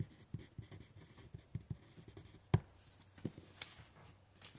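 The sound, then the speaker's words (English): A pencil writes on a sheet of paper: soft, irregular scratching strokes and light taps, mostly faint, with one sharper tap midway. “you might want to get out a piece of paper and write inclusion.”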